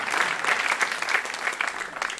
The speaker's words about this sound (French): Est-ce qu'on peut acclamer Jésus le roi, le Seigneur qui ne quitte pas le navire quand c'est difficile?